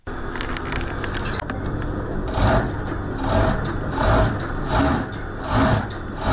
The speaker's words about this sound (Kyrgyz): Чакан бөлмө, бир канча тигүү машинелери, бир бурчунда өтүү тактасы, бул катардагы кийим моңдоочу жай, болгону иш үстүндө бычмачы жигит экен.